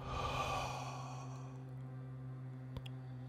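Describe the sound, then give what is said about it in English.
A long exhaled breath during a guided breathing exercise: a soft, breathy sigh that swells at the start, then trails off gradually into near quiet. “take a long breath in. And hold. Hold. Release.”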